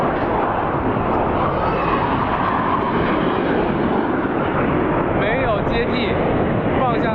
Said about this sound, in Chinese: 这次出现在我们上空的这个三架歼十五组成编队